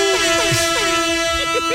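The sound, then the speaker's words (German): A toy party horn is blown in a steady buzzy drone that holds throughout, with voices sounding over it. “Konntest du meine Tröte”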